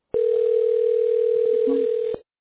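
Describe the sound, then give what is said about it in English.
Steady telephone dial tone holds a single even pitch for about two seconds, broken by a few faint clicks as a number is dialed, then cuts off abruptly. “Well, right now we're dialing that.”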